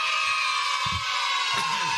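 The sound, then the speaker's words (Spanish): Children shout and cheer together in a dense, continuous wash of high, excited voices that stays loud and steady throughout. “La alegría de los pibes es tremendo. Es tremendo. Aparte nos imagino todos juntos gritando. Todos juntos gritando. ¿No? Ahí está, mirá. Está buenísimo. Te pone contento. Ya. Escuchá a los chicos, te pone contento.”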